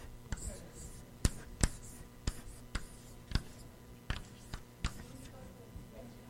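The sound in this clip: Right-handed handwriting makes many sharp, irregular pen taps and strokes on paper, each a brief crisp click over a low steady hum, with faint talk in the background.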